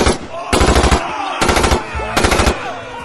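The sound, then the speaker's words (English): Blaster gunfire as a sound effect: three loud volleys of rapid, harsh shots separated by short gaps, with a busy, scratchy background sound running between the bursts. “caught the sound of the blaster”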